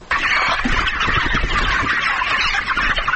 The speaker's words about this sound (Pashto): دا د ترینکوټ ښار اړوند د بیداک په سیمه کې د نعمت الله حکیار د چرګانو فارم دی